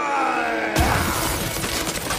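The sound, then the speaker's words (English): Ice smashed by a club in a cartoon scene: a sudden loud shattering crash breaks in over a sustained tone, followed by a dense crackling, splintering wash of ice breaking. “That big Viking is about to smash the ice with his club.”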